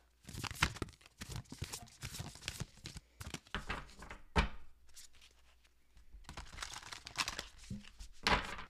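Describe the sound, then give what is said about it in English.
Oracle cards being shuffled and pulled from a deck, crisp papery riffles and crinkly bursts in irregular clusters, with a quieter lull in the middle before another round of sharp flicks and taps. “Okay, should we do a card pull?”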